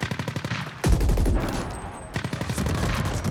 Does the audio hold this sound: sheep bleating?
no